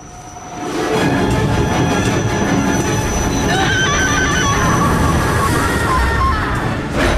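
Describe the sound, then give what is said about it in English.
A train hurtles along the tracks with a loud, steady roar that swells in the first second, then high metallic wheel squeals ring out over the rumble in the second half. “Suddenly, a train hurtles towards her.”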